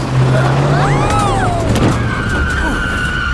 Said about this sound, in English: Hold on to your tater tots, everybody. Grandma G-Force is gonna step on the gas.